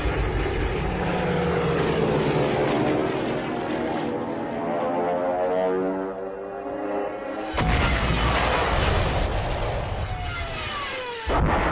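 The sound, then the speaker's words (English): Stuka dive bombers attacking French tanks: a continuous loud propeller-engine roar with a sudden louder burst part way through, after which the engine tone sweeps downward. “But without any reinforcements or aerial support, the French tanks become prey to the Stukas.”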